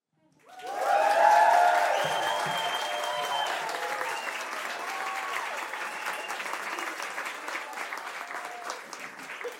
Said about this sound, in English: So let's put our hands together and congratulate them.